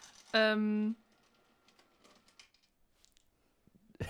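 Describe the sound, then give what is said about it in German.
An automatic cat food dispenser gives a short, loud buzzing tone of about half a second, followed by faint, irregular clicking and pattering that resembles typing. “Das ist der Futterautomat für die Katze.”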